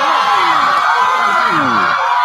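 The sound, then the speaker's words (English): A comedy show's studio audience whoops and cheers, a loud, dense wash of crowd noise with sliding yells and shouts throughout. “Oh my God, it does sound a little bit quiet in here. What's going on with you people? Man. Make a little noise. Let's have a little ruckus.”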